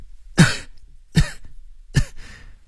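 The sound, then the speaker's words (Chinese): Soft coughs, three short dry bursts evenly spaced about a second apart, each fading quickly into near silence, with no talking. “吴继平轻轻地咳嗽两声，又顺便品一品喉咙里有没有血腥气味。”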